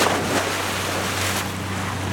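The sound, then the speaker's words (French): A motorboat races over waves, its low engine drone steady beneath loud rushing water and wind noise that swells and fades slightly. “Je n'ai jamais su dire non à un bateau à moteur.”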